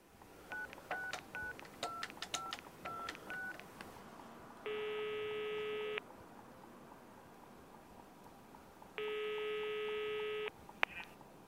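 Telephone touch-tone dialing for a call to a moving company: a rapid series of faint beeps, then two long, steady ringing tones separated by a quiet gap, and a brief click at the end.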